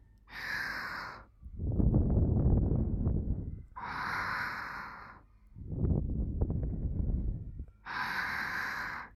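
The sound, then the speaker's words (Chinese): Slow breathing held close to a phone microphone: three sharp, airy inhales alternate with two long exhales that blow against the mic as a loud, rumbling rush. No words are spoken. “那如果我现在贴近对你呼吸，”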